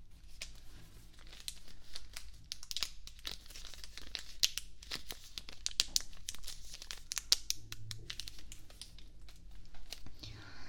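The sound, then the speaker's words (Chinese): Plastic packaging of disposable ear-cleaning tools crinkles and tears open in a steady run of many sharp, soft crackles that continue through the whole clip. “那我这边先帮您把工具拆开。”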